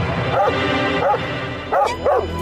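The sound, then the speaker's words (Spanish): A dog barks four times in short, sharp yelps, the first two spaced apart and the last two coming close together. “¡Toma! ¡Perro desgraciado!”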